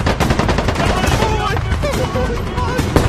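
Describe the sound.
Video game gunfire crackles in dense, rapid bursts of shots that run almost without pause, loud and continuous, with voices underneath.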